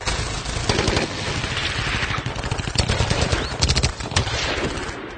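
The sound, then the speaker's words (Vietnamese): A sustained burst of loud gunfire near a riverbank, rapid shots crackling one after another without a break for several seconds, dense and harsh, like automatic weapons firing in a long fusillade. “Một loạt tiếng súng khá lớn liên tiếp nổ vang rền ở phía bờ sông, cắt ngang câu nói của Nhâm”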